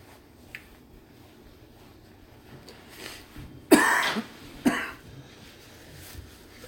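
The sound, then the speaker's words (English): Two sharp coughs from someone who has choked on something that went down the wrong windpipe. The first is a longer, harsh burst and the second is shorter, both alone over a quiet background. “Excuse me. Went down the wrong windpipe.”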